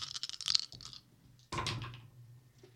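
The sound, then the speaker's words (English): Dice rolled during a tabletop role-playing game session, heard as two soft bursts of rattling, clicking clatter separated by a short pause. No voices are heard. “Dice ASMR, friends.”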